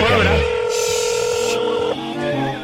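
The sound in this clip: Telephone dialing before a call to a hardware store, heard as a few sustained electronic tones in quick succession, loud and steady over a couple of seconds.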